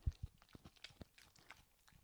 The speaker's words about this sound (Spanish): a mi derecha está el perro con su hueso. Enzo, a ver si se escucha lo que haces.